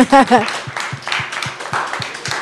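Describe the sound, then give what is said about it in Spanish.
Applause from the audience at a meeting, starting after a short spoken phrase: a run of light, evenly spaced claps that continues at a steady pace to the end. “Pues nos lo echamos y yo creo que nos merecemos un aplauso, ¿no?”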